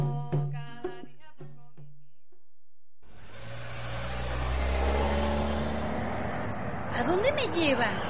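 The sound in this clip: A taxi's car engine revs with a broad, rising rumble and wavering pitch sweeps near the end, after a voice is heard talking briefly before it.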